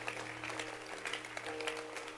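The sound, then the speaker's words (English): A church audience gives a round of faint applause, a soft, steady patter of many hands clapping together without a clear beat. “Clap your hands for Sister Elom.”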